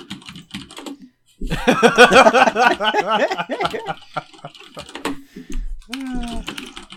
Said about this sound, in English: what book are you typing